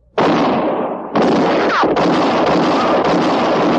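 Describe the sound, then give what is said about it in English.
Gunshots ring out in a 1958 western radio drama, a woman's shot missing its target and hitting a man. Several loud, abrupt blasts follow one another closely, each with a long ringing tail that runs into the next. “It was Katie Fulton's shot that missed Mattie Silks and hit Court Thompson.”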